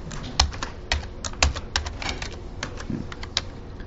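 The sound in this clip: Keys clatter on a computer keyboard in an irregular run of many quick, light keystrokes with a few sharper taps, fairly soft and with no voices.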